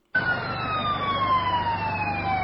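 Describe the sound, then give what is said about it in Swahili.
A fire brigade siren after a large market fire in Bujumbura, Burundi, starts abruptly after a brief silence. It holds a loud, continuous wail whose pitch slides steadily downward over a low engine rumble. “Hicho ni kikosi cha zimamoto baada ya moto mkubwa kuzuka na kuunguza robo tatu ya soko la Kinama lililopo mjini Bujumbura”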